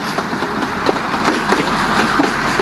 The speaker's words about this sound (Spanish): acá pasa el tren. El Belgrano Sur.